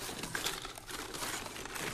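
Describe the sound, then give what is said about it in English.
Soft crinkling and rustling of a brown paper bag of biscuits inside a large handbag as someone searches through it. The crackle is continuous and fairly quiet throughout, with no voices. “She finds it in a brown paper bag of biscuits and pulls it out with a shower of crumbs.”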